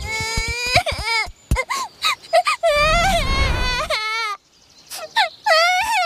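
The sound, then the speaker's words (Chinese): A child crying: loud, high, wavering wails and sobs in repeated bursts with short pauses, plus a rougher, noisier stretch in the middle. “好像有人在哭，走，看看去。”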